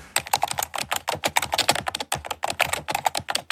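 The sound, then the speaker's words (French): Rapid typing on a computer keyboard makes a dense, irregular clatter of many key clicks, with a short pause midway before the tapping resumes. “Voilà, et ça tape et ça pianote.”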